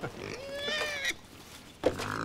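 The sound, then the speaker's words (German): Wild boars in an enclosure between the Baltic coast and a forest: a drawn-out, wavering squeal-like call, then a short sharp grunt near the end, over a low continuous background. “Und mittendrin im Gehege lebt Familie Wildschwein.”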